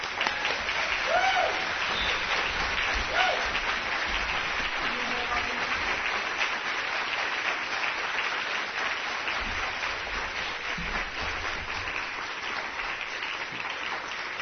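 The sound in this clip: Sustained audience applause welcomes author Walter Mosley to the stage, a dense, steady wash of clapping that holds at an even level for the full length without easing off, with no talk over it.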